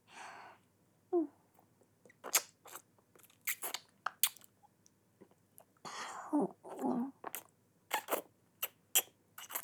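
Crunching and biting from someone eating ice cream after a bath: many sharp, irregular crunches of varying loudness, separated by short quiet gaps, with no talking.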